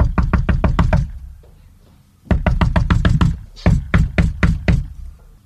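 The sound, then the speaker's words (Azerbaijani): Knocking on a door comes in three quick runs of sharp, loud raps separated by brief pauses, with no voices. “Əvvəlcə böyük quzunun evini tapıb, qapını döyür.”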